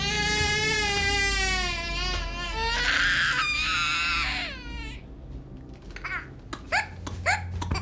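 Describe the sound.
A young girl crying: long, high, wailing sobs that waver in pitch for several seconds, then a series of shorter, broken whimpers and gasping cries.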